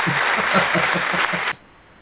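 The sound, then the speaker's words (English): Applause plays on a radio call-in show as a thin, narrow-band wash of clapping with a faint pulsing underneath. It holds steady for about a second and a half, then cuts off abruptly to near silence. “There's our applause, Lisa.”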